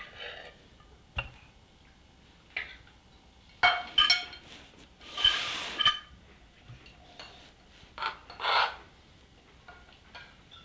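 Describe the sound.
A heavy dish is handled and set about, producing a few scattered clinks, knocks and scraping rubs at irregular intervals, mostly faint, with a louder cluster of scrapes in the middle.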